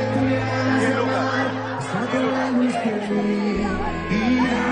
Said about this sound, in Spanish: Además, escucha el público.